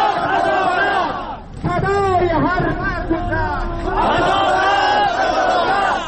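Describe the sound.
Sadat protesters chanting slogans at a demonstration in Bamiyan province, Afghanistan: a loud crowd repeats chanted phrases with overlapping voices, briefly dipping before the chant swells again.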